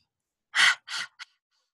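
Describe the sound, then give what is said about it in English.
Three forceful, breathy exhales of a lion's breath exercise, pushed out with the tongue out. Each is a loud, airy burst, the first long, the second shorter and the third a quick, brief puff. “But not only can you do a lion's breath with children”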